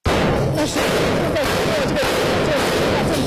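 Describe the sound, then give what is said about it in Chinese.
Heavy machine guns fire at extremist-held areas from a Syrian government army position at a wrecked railway station, three guns together. The shots blur into a loud, dense, continuous rattling roar with a few sharper cracks. “3个这个重机枪呢正在对极端组织的一些区域呢进行打击。”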